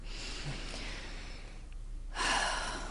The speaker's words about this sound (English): Take a deep breath.